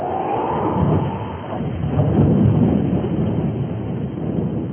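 A rainstorm with gusting wind and low rumbling thunder roars loudly and steadily, swelling to a peak midway before easing slightly, with no voices.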